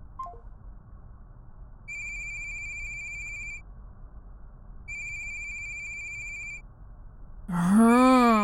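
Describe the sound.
A phone ringtone from an unknown caller sounds in two bursts of high, trilling electronic tone with a short pause between them. A voice then groans.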